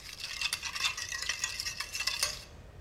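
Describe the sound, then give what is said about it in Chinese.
A spoon stirs a seasoned mixture in a bowl: salt, MSG, chicken bouillon, pepper, sugar, soy sauce and oyster sauce, with potato starch just added. Steady, rhythmic scraping strokes repeat and then stop near the end. “最后加入土豆生粉，搅拌均匀即可。”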